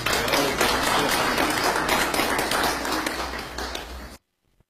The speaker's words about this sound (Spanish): un fuerte aplauso para Carmita,